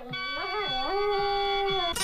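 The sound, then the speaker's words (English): A dog howls along with the closing bars of a vinyl country-folk song, a long wavering tone that bends up and down before settling higher over the sustained music, ending in a brief burst of noise. “There it was. There was the dog singing.”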